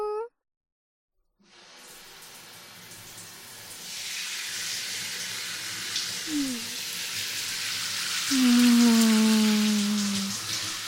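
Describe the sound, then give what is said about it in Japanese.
Warm water runs as hair is rinsed, a soft hiss that starts after a brief silence and swells into a fuller, steady rush toward the end. “お湯で髪の毛流しちゃうよ。”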